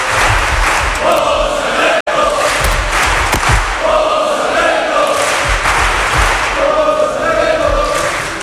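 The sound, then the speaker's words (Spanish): A crowd chants loudly for José Alberto in a dense, sustained roar of many voices, with one brief break partway through. “¿Siempre han cantado así a José Alberto?”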